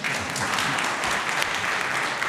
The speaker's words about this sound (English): Oh, you're allowed to applaud.